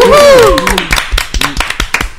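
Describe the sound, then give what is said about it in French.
Applause for a guest near the end of a French-language show: scattered, sharp hand claps in an uneven rhythm, fairly loud, following a brief tonal sweeping sound at the start. “Et on applaudit notre cher Miaro.”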